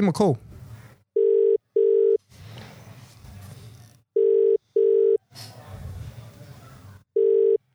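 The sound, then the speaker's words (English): Outgoing telephone call ringing on the line: three cycles of a double-burst ring tone, each pair of short even tones followed by a pause filled with a low line hiss. “Let's give him a call.”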